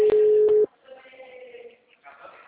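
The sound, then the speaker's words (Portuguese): A telephone tone sounds while a call is being placed: a loud, steady single-pitch tone lasting under a second with a couple of brief breaks, then faint background sound. “Mentira, eu tô fazendo a ligação já.”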